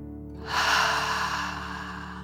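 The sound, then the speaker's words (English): A deep "dragon breath" taken during a calming guided relaxation, heard as one long breathy rush that swells suddenly after a short pause and then slowly fades over soft, steady background tones. “Keep your eyes closed as you take a deep dragon breath. In and out.”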